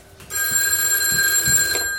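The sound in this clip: A landline telephone rings, a line used as an office line. The electronic ring is loud and steady, made of bright high tones, and it sounds alone for about two seconds.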